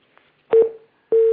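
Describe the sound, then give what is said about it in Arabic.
Telephone tone heard after a phone-in call from Bahrain was cut off: two loud, steady mid-pitched tone bursts with a short gap between them. No voices. “يعني كان الاتصال من البحرين وانقطع”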